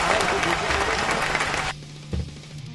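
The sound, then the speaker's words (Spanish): Crowd noise with applause, added as a background sound effect, fills the first part as a dense, loud roar, then cuts off abruptly, leaving a low hum and one brief thump. “Poné cosas de fondo como que hay gente, sí, boludo, apurate.”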